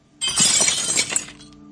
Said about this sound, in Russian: Вдруг, слышу, стекло разбилось.